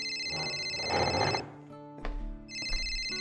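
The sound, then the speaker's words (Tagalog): An incoming call sets a telephone ringing with a loud, warbling electronic tone that stops briefly and then starts again. “Oh, teka. Tumatawag si boss. Sagutin ko muna to.”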